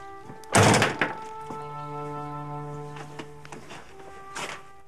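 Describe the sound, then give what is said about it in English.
A door being shut, one heavy thunk early on followed by a few faint knocks, over a steady tonal background. “The boy slowly and almost reluctantly follows him in and shuts the door behind him.”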